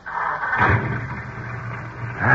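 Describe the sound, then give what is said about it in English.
An old jalopy, started without a key, rumbles into life: a low, rough engine drone that swells and rises toward the end as the car pulls away. “I'm going to drive this jalopy myself. Hold your hat. Here we go.”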